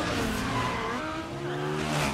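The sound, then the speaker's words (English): Engines roar in the trailer for the 2004 film Torque, a loud, continuous high-revving drone mixed with squealing tires that holds steady throughout. “We are talking, of course, about 2004's film Torque, directed by Joseph Kahn and produced by nu metal stalwart Neil H. Moritz. Let's play the trailer.”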